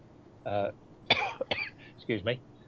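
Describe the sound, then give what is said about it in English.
A person coughs in a few short, harsh bursts mixed in with speech, fairly quiet overall. “God, I'm coughing and I'm done there.”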